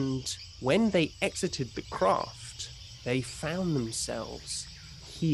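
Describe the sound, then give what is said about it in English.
Crickets chirp steadily in a swampy bayou, a soft high-pitched drone beneath a voice talking throughout. “which is what all these noises you can hear in the background are about. They found themselves far south of Val. In a swampy bayou.”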